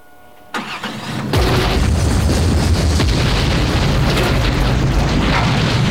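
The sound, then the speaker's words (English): A car explodes on sand: a sharp burst breaks the quiet, followed moments later by a massive, loud, sustained roar that rumbles on without pause to the end. “Cyrus closes the door after him, then strides away across the sand, an intense and haunted look on his face. Behind him, the car explodes.”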